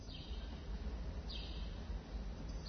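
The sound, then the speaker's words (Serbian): Faint, high bird chirps recur a few times on a calm morning in central Belgrade, set over a steady low city hum. “Ptičice se čuju, možda ćete ih i vi čuti. Evo da probamo da ih čujemo.”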